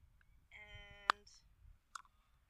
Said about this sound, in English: I have a mini pill box. What's in the pill box?